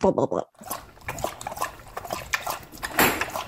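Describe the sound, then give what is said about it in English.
A voice imitates a dog lapping water from a bowl, making many quick, wet slurping and smacking mouth noises in an irregular rhythm, with a short break near the start. “when you hear a dog drink water out of a bowl and it's just like,”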